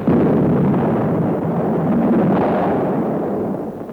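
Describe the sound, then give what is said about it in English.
Artillery fire from a battleship shelling Westerplatte, in an old archival recording: a dense, steady rumbling roar with no separate blasts standing out, fading slightly near the end. “The Poles have rejected the Führer's ultimatum, so the guns are now talking. The battleship Schleswig-Holstein is shelling Westerplatte.”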